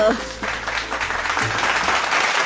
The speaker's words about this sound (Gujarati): બાળકો, વગાડો લાલાજી માટે જોરદાર તાળીઓ.